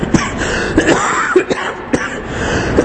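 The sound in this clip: A person with a cough lasting several days coughs and clears their throat: several short, harsh bursts at irregular intervals, some close together.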